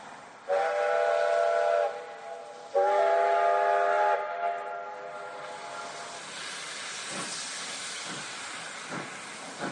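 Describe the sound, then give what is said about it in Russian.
A steam locomotive's whistle sounds two loud, steady blasts. A long hiss of steam follows, with a few sharp clanks as the train carriage starts to move. “Два коротких гудка, и качнулась лавка. Лязгнули стекла, заскрипели стенки вагона. Поезд дрогнул и тронулся с места, понемногу набирая ход”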